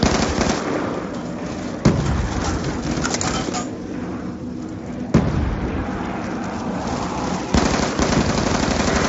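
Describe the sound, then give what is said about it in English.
Grenade explosions and gunfire in a video game: three sharp blasts stand out over a steady, dense roar of noise. “Who's throwing so many grenades? Me.”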